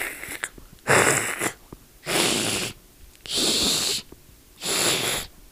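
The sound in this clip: A voice imitates a goose hissing aggressively: four drawn-out, breathy hisses separated by short pauses, loud and with no talk between them.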